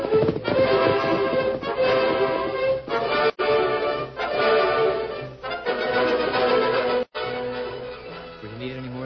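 Hoofbeats of the Lone Ranger's horse Silver clatter on without pause, many clip-clop beats running over a dense, continuous backdrop with only two brief breaks.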